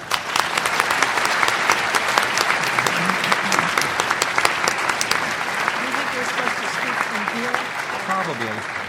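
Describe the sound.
Dense, sustained audience applause welcoming a judge to the lectern at a talk on judicial independence, holding at a steady level throughout, with a voice rising within it during the later part.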